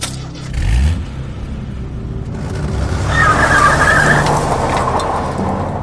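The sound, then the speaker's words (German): A Bentley car speeds away: an engine rev rises quickly at the start, then a loud, sustained rumble follows with a brief squeal of tyres in the middle. “Der Bentley brauste davon.”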